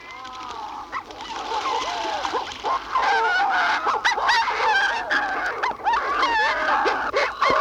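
A shearwater calls from its nesting burrow in a long series of wailing, honking cries that waver up and down in pitch, loud and almost continuous throughout.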